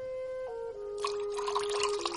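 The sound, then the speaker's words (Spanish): Milk is poured from a glass back into a jug, a faint gurgling, splashing trickle of liquid that starts partway through and continues to the end. “A continuación lo coge y lo vuelve a echar en la jarra.”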